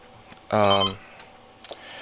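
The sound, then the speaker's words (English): A telephone rings with an incoming call to a radio show: one loud, harmonically rich ring burst lasting about half a second, followed by a couple of faint clicks. “that sounds like that might be my caller.”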